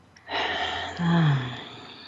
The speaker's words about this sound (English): Take a couple of deep breaths. In fact, let's do that together right now.